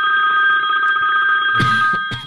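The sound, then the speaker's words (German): A modern phone ringtone rings as a steady, bright electronic tone that holds loud through the whole moment, with a couple of soft knocks near the end. “Ich wusste gar nicht, dass du so einen modernen Klingelton hast.”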